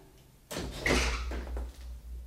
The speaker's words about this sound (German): hier ist eine Tür.